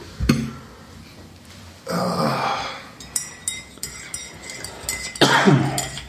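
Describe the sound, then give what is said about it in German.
A few harsh coughs from a persistent, ongoing cough that comes without illness: sharp, loud bursts separated by pauses, with smaller rasping throat sounds in between. “Ich werde heute husten. Das ist nicht das erste Mal.”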